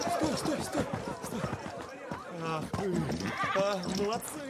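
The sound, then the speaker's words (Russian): Horses come running in a film scene beside an overturned royal carriage, hooves clattering with neighing and whinnying, mixed with voices. “Кони прибегают к Ивану.”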